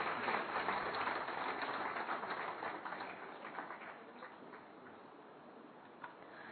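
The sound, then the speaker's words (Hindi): Audience applause welcoming a guest at a Hindi-language gathering: dense, steady clapping that gradually thins and fades quieter toward the end, with a lone sharper clap near the close. “और हम सब तालियों के साथ आपका अभिनंदन कर रहे हैं।”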